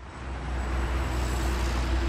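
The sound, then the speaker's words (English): Traffic moving on a Los Angeles road makes a continuous low roar and rumble that swells slightly at the start, then holds steady, with no voices. “Hear that? That's the sound of traffic moving in Los Angeles.”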